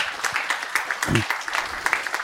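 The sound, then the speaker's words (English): Applause from the audience at a security conference talk about hacking a smart hub, a busy patter of many hands clapping at a moderate level. “So without further ado, another round of applause.”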